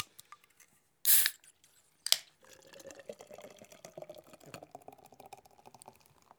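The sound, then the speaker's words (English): A Guinness is cracked open with a short, sharp burst of hiss, then a second brief snap. A steady fizzing, gurgling pour of the stout fills the rest of the time. “time to crack open the Guinness.”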